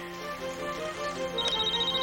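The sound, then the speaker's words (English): A cell phone rings out in the woods above a mill near the snow line: a faint ringtone with rhythmic, high-pitched pulses that become regular in the second half, over a steady low hum. “Your cell phone works up here? Paul answers his phone.”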